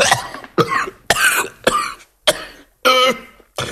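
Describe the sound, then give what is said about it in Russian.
A furious coughing fit: a rapid series of harsh, loud, chesty coughs in short bursts separated by brief gasping pauses, with some throat clearing. “яростно закашлялся”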